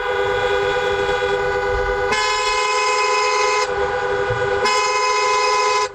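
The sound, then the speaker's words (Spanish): Car horns and traffic at a busy border crossing with long queues: sustained, overlapping honks blaring continuously and loudly, with the horn tones shifting and layering several times over a low rumble of vehicles. “este es el sonido de la frontera del Tarajal a esta hora.”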